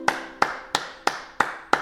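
Six sharp hand claps in a slow, steady, evenly spaced rhythm, each with a brief ringing decay, heard alone without voices.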